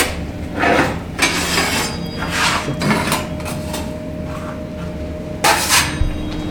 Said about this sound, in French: Voilà, la plaque est chaude, on referme le four.